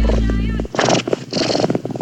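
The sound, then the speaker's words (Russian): A cat purring, a raspy, pulsing low rumble lasting about two seconds, with a steady low hum underneath at the start. “Боже, это мурчание. Это мастер нашего массажного салона. Я начал забывать, что такое мурчание.”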